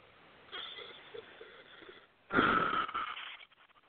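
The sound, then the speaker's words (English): A deep breath with no talk: a softer, drawn-out inhale followed by a louder, airy, slightly wheezy exhale that trails off. “Okay, take a nice deep breath.”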